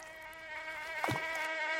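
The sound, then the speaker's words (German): A floodwater mosquito (Aedes vexans) from a river floodplain buzzes with a continuous thin, high whine. Its pitch bends briefly as it passes close, then settles back to the steady drone. “Die schönen Rheinauen und die Altrheinarme und die Baggerseen haben natürlich auch einige kleine Nachteile. Und die heißen Schnaken.”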